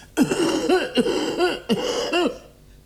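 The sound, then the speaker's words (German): A person coughing in a stage play: a run of several harsh, throaty coughs in quick bursts at an uneven rhythm, fairly loud and with no talk, trailing off at the end. “Ich huste ebenfalls und werfe ängstliche Blicke. Hustete hier wer? Ich tat es”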